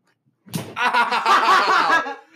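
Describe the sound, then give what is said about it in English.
A hand punches the underside of a table, giving one sharp smack that is followed by a drawn-out, strained voice lasting a couple of seconds before it trails off. “Dude, I actually made the punch. The punch didn't even hurt me. I just skinned my hand against the bottom of the table.”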